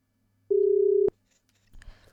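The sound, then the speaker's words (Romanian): A single steady telephone ringing tone sounds while someone is being called. It ends in a sharp click, and faint rustling follows. “Hai să-l sunăm, să-l sunăm pe Vasile să vedem, ne răspunde ori nu.”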